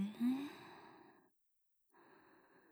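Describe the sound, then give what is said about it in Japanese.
A deep inhaled breath taken during a guided breathing exercise: about a second of soft, breathy airflow, then a silent pause before another breath begins. “私の声に合わせて、 深呼吸をしましょうか。いくわよ。吸って。”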